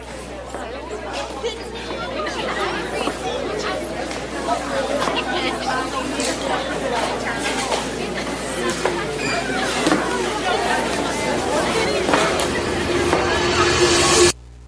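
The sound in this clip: A college crowd chatters loudly, with many overlapping voices forming a dense, continuous babble. The noise grows slightly louder before cutting off abruptly at the end.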